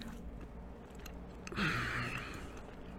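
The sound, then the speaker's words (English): A jelly bean is bitten and chewed: one soft bite followed by a short burst of moist chewing, faint and heard alone. “Now I'm about to bite into this thing. What are your predictions for what this bean was based on what you saw of it?”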